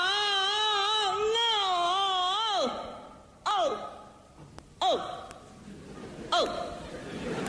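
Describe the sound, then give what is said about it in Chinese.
A voice imitates the crying of a Peking opera old-man role: a long, quavering sung wail with steady vibrato that sinks in pitch, then three short, sharp sobbing cries, each falling away, with quiet gaps between them. “这就哭了。 哦，这就算哭了。 干哭没眼泪。”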